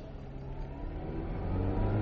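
A car's engine drones as it travels at speed: a steady, low, rumbling roar that grows gradually louder across the short stretch.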